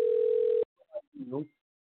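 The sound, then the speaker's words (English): A steady telephone dial tone hums for about half a second while a failed call is redialed, then cuts off abruptly, followed by a few brief bursts of speech. “So don't worry, because I'm gonna get him back on the phone,”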